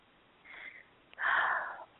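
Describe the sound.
A deep inhale and exhale during a guided meditation: a soft, short breath in, a pause, then a louder, longer airy breath out, with no talking.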